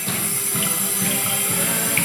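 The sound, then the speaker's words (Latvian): Running tap water rinses photographic paper that turns Prussian blue in the wash, heard as a steady, even gush of flowing water. “Pēc noteikta laika fotogrāfs ieliek papīru tekošā ūdenī un attēls sāk iegūt zilo krāsu.”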